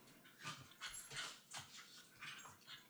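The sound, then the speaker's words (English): Dogs fighting: a rapid series of yelps, whimpers and panting bursts, irregular and fairly loud, with no voices. “This is one of those fights you were talking about breaking up. Yeah, we have a dog fight going on.”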